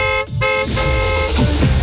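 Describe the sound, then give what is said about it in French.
A moped's horn honks as the bike arrives: bright, nasal tonal toots, a short one followed by a longer held blast, with a rough low motor hum underneath and no talking. “C'est Popo qui arrive sur sa mobilette.”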